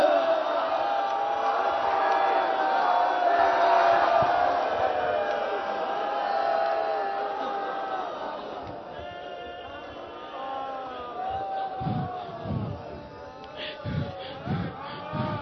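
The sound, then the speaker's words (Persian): Crowd cheering and clapping, a dense mass of raised voices and shouts throughout, with sharp, distinct handclaps growing more prominent in the last few seconds. “بابا ببین همه دارن دست میزنن، هل هل میکنن”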